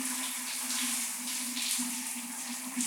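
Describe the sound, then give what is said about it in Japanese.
Steady hiss of shower water rinsing a person's back, a continuous spray with a low hum beneath it and no voices. “では、そろそろ洗い流しますか。目を閉じてくださいね。”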